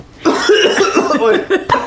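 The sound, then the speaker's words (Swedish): A person coughs after choking on something: a run of harsh, throaty coughs ending with a couple of sharp, louder bursts. “Förlåt, jag satt i halsen.”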